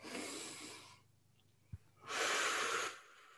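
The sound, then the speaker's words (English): Deep breathing during a pause to settle in: a long, airy breath lasting about a second, a short gap, then a second equally long, fuller breath. Both are soft and no one speaks. “So I'm going to go ahead and take a moment and take a deep breath in and”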